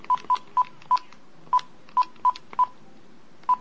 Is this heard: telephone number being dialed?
yes